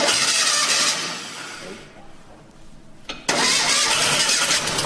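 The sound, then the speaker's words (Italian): A 500 car engine is restarted after sitting for 16 years and catches almost on the first try. Loud cranking fades into a quieter lull, then the engine fires with a sharp burst and runs loudly and steadily. “Eccola qua, è partita. Abbiamo digitato su YouTube accensione 500 e abbiamo trovato questo video in cui c'è una 500 che viene riaccesa dopo 16 anni e quasi al primo colpo parte.”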